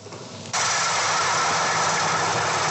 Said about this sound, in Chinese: 安徽黄山市歙县镇村镇梅村的油菜田里，大型收割机正开足马力穿梭作业